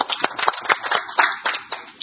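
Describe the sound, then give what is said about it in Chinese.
Meeting attendees at a district council committee session clapping to welcome a new housing official, a small group's scattered, uneven claps forming a sparse patter of distinct sharp hits rather than a dense roar. “欢迎欢迎，给你掌声。”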